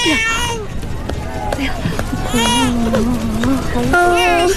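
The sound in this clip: An infant crying and whimpering in a dramatized scene, with several wavering, high-pitched wailing bursts and a voice talking alongside.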